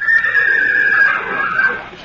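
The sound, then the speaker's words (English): A wild horse whinnies: a loud, high, wavering neigh held for about two seconds, tapering off slightly at the end, with no voices over it. “I can't ride that wild horse.”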